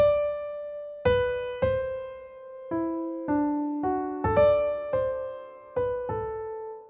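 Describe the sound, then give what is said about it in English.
A solo viola plays a theme from an orchestral symphony as a slow series of clear, sustained bowed notes, each starting firmly and then fading, moving up and down in a mid-range melody. “Berlioz deploys a Harold theme, played by the viola. It sounds like this.”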